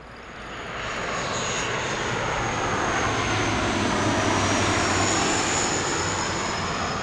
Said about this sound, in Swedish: Ett inrikesflygplan går in för landning nära centrala Reykjavik.